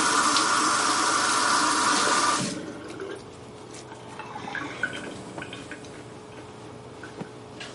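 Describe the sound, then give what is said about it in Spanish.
Tap water runs at a bathroom sink as someone washes their face, a steady rushing stream that stops after a couple of seconds, followed by quieter small knocks and drips. “Se lava la cara en el cuarto de baño.”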